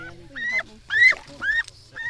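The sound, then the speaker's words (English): Geese honk, held in people's hands, giving a short run of a few nasal, mid-pitched calls, each brief and fairly loud, with faint background noise between them. “I like holding the geese. It's just a cool feeling to have their wings in your hands and stuff”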